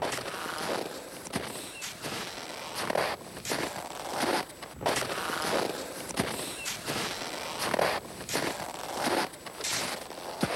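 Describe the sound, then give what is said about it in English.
Footsteps of a trekker crossing ice- and snow-covered ground in Antarctica: a steady, rhythmic run of gritty crunches and scrapes, fairly loud throughout, with no voices. “And this is the sound of Borge Alslan trekking his way across the ice and snow-covered surface of Antarctica”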